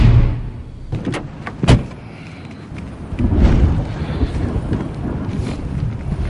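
A police cruiser's trunk slams shut in a parking lot, one solid thump rising above a few lighter knocks and a steady, wind-like rumble.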